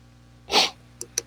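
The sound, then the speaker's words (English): One sharp, breathy hiccup, a short burst of air, followed by two faint clicks in quick succession. “I think I might have caught the hiccups.”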